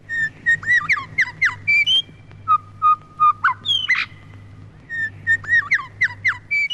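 Calls of an eastern whipbird and a grey shrike-thrush: many clear whistled phrases, chirps and rising sweeps in short bursts, with a sharp cracking note midway, over a steady low hum.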